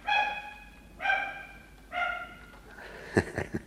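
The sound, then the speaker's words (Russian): A dog barking: three drawn-out, tonal barks spaced about a second apart, followed by a few sharp, short bursts of sound at the end. “Это моя... Собака.”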